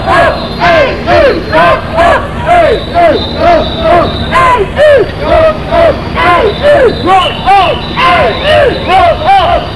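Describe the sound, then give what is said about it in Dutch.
Crowd shouting at a border demonstration, many voices chanting loudly in steady, regular bursts that repeat about twice a second throughout. “Dit zijn geen live geluiden, dit zijn geluiden afkomstig van de demonstratie bij het grenshospitum.”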